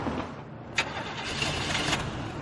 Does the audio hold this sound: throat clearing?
no